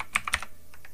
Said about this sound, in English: Let's type in, let's type in Tucker Carlson.